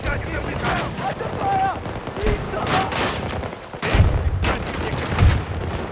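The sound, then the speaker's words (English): A grenade explosion in a video game sounds as deep booming thuds in the later seconds, amid a clatter of rapid gunfire bursts, with voices talking over the action. “Alright, I'm sending it. Grenade out!”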